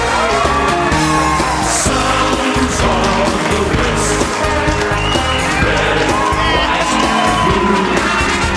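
A stage audience at a footy panel show cheers loudly as an AFL footballer guest is welcomed on. Whoops, yells and shouts blend into a sustained roar that stays at full volume throughout.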